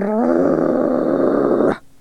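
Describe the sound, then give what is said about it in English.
A wolf snarls and growls, a single loud, rough, low rumble held steadily for under two seconds before it breaks off abruptly. “snarled the wolf”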